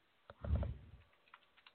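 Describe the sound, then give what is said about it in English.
Typing on a computer keyboard during a word game: a quick, faint burst of keystrokes followed by a few light, scattered key clicks. “Start typing.”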